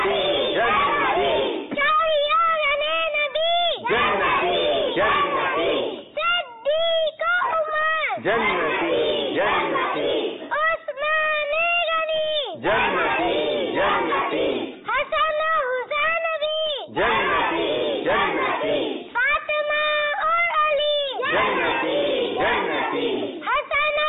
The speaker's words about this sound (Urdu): آئیے نعرہ لگاتے ہیں اور اسی کے ساتھ ہی ہمیں اجازت دیجئے. اب سب ہاتھ اٹھا کے نعرے کا جواب دیں گے.